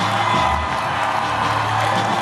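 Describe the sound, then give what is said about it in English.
A crowd cheers and applauds as a woman arrives, with whoops over a continuous wash of clapping and shouting that stays loud and steady. “Cheers and applause, and here she comes.”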